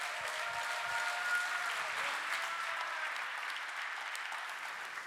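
A church audience applauds to welcome a pastor, a sustained, even roar of clapping that holds steady for about five seconds and eases slightly toward the end.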